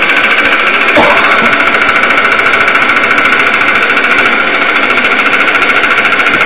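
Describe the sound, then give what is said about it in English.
An electric fuel pump pushing diesel fuel out of a gas tank, giving a loud, continuous mechanical buzz and whir with a fast, rattling pulse. A brief sharp click comes near the start. “Right now we're purging the diesel fuel out of the gas tank. We're running the electric fuel pump, and here you can see the diesel fuel being pushed out of the fuel tank.”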